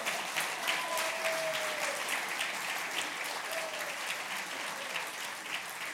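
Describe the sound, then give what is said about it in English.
Applause from a gathered group clapping for people about to go on a trip: a steady, dense patter of many hands that holds an even level throughout. “I think we can clap for them”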